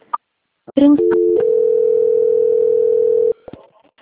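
A telephone tone while a call is being transferred: a few short clicks and beeps, then one steady, loud, even tone holding for about two seconds before cutting off, followed by faint clicks.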